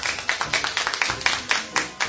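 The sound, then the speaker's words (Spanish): An audience at a children's storytelling event claps together at the end of the story. The loud unison hand claps fall on a steady, quick beat with short gaps between them. “Y colorín colorado, esta historia ha terminado y nosotros damos un aplauso porque nos ha encantado.”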